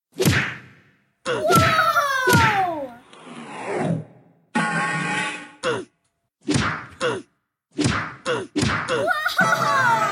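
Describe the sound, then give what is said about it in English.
Many sharp whacks, slaps and swishing swoops from a staged fist fight between several people on Christmas night, arriving in quick bursts separated by brief silences. “They're all hitting each other with a punch. Yeah, you can't do that. They're all going away. They're dragging each other out.”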